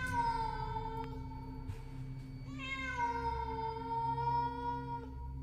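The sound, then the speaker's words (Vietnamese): A cat meows in an underground stairway, giving two long, sustained, echoing cries, the second starting about halfway through and lasting to the end, loud and steady over a low background hum. “Con mèo chạy xuống biến mất trong bóng tối. Chỉ để lại những tiếng kêu meo meo vọng lại như đang muốn gọi Huy”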